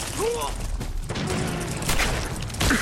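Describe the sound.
Shotgun blasts in a video game: a few sharp bursts of gunfire ring out among busy game sounds.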